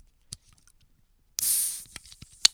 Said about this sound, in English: Oh, crack it open a cold one with the boys. With the fizzle at the beginning.